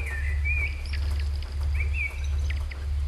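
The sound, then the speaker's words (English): Birds singing a dawn chorus, with a few clear whistled and chirping phrases heard over a steady, loud low hum. “This is the sound of the Bird's Dawn Chorus and the Earth's Dawn Chorus.”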